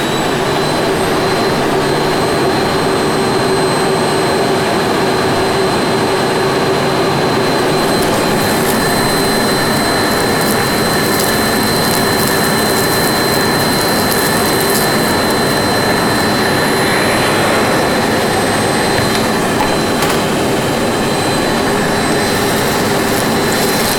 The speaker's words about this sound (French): ils vont enregistrer le bruit d'aspirateur, madame. Vous pouvez laisser allumer.